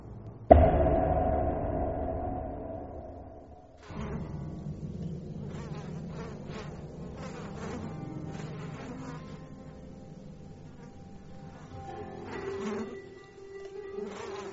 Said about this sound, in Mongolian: Дэлхийд хамгийн олон төрлөөр үржиж амьдардаг шавьжвал ялаа юм. Бидний сайн мэдих гэрийн хар ялаа нь хос талвчны багт хамаардаг.